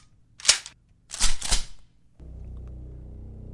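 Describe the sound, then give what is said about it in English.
A shotgun being cocked: one crisp metallic click, then a quick double clack of the action, followed by a low, steady hum. “When I stepped inside, I heard the distinct sound of a shotgun cocking.”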